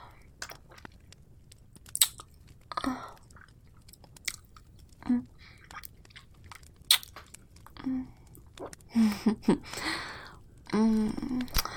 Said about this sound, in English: Let me lick your fingers clean.